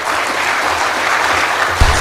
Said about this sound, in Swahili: Makofi mengi kwa Profesa.